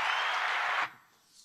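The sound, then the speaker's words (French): Audience applause at a startup pitch battle event: a dense burst of clapping that cuts off abruptly less than a second in, leaving near quiet. “On l'applaudit.”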